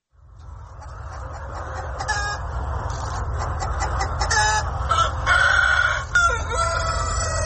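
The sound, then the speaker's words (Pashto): Roosters of the Vietnamese dragon chicken breed, large, prized birds with colorful dragon-like legs, crowing on a farm over steady background noise, with several overlapping crows and clucks. “د ویتنام د چرګانو د ځنګړي نسل ته ډراګن چرګان هم ویل کیږي، ځکه چې دا چرګان د یو ډول خامار چې په انګریزي کې ورته ډراګن وای په شان رنگینه خپې لري.”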